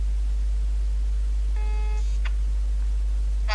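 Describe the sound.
A telephone ringing tone plays while a call is placed: one short, buzzy tone over a steady low hum, followed by a couple of brief electronic blips.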